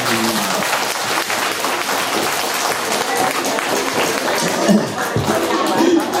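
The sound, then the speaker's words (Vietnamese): Loud, steady clapping from an audience at a Buddhist retreat gathering, a thick wash of hands that keeps up without a break for the whole stretch. “mời con lên đây, dạ vỗ tay lên.”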